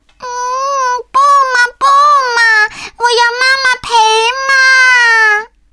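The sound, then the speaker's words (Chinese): A young child cries while sitting on the floor. Loud, high, wavering wails come in several long sobbing bursts with short catches of breath between them, alone with no talk over them. “小布丁说着，就坐在地上哭了起来。”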